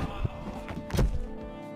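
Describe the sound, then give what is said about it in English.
Someone falls down from a treehouse, heard as a few dull, heavy thumps and knocks in quick succession, with the loudest impact landing near the middle. “Did he just fall down the fucking treehouse? Is he dead?”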